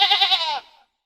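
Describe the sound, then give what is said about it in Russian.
A sheep bleats once, a single harmonic, nasal cry about half a second long that fades out quickly, with silence after it. “Овца.”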